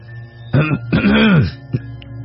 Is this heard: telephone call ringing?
no